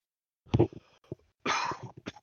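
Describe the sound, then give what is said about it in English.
A sick person coughs a few times in short, harsh bursts, one fairly sharp and a later rougher, breathier one trailing into small follow-up sounds. “I'm trying to mute myself in between coughs. I've been sick for like a week.”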